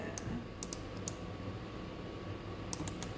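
Faint computer keyboard typing for a Google search: a few sparse, sharp key clicks, some in quick pairs, scattered over a steady low background hum.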